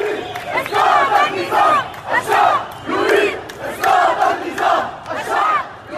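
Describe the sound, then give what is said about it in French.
Protesters in Lebanon chant an Arabic slogan demanding the fall of the regime, at a mass evening demonstration against a new tax on instant messaging. Thousands of voices shout in loud, rhythmic, repeating phrases with no break. “Le peuple réclame la chute du régime, on reconnaît là le chant emblématique du printemps arabe de 2011.”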